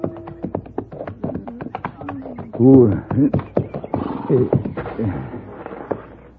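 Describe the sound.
Horse hooves as a rider approaches through ranch grounds: a steady run of sharp clip-clop taps under a man's speaking voice.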